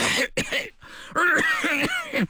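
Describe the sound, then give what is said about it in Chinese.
Violent coughing from a man with lung disease: a few harsh, rasping, voiced bursts, with a short pause before a longer, louder fit. “瞿秋白说着猛烈地咳嗽了起来。咳嗽停住以后，瞿秋白”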